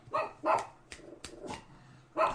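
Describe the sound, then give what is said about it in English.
An agitated female dog barking in several sharp, uneven bursts, fairly quiet, with short gaps between barks and no talking. “hang on a second, my dog is losing her mind.”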